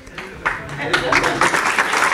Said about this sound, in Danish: Og så bliver der klappet.